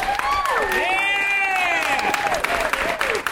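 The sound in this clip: Audience applause greets a guest: dense, continuous clapping with a voice rising over it throughout.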